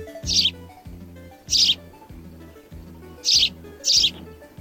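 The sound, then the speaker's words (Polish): Sparrow chirping: four short, high, bright chirp bursts, spaced irregularly, stand out over a low, rhythmically pulsing background. “Ewidentnie ćwierkanie. Który ptak tak ćwierka, panie Mateuszu? Powszechny, nieduży. Wróbelek.”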